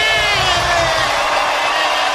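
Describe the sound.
Live audience cheering during a recorded song performance: a dense, steady roar of crowd voices and whoops, loud and sustained throughout without a clear break.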